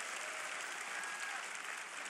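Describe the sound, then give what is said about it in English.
A church audience claps its hands during a sermon, a faint, continuous patter of many hands that holds level without pause. “Clap your hands on that verse.”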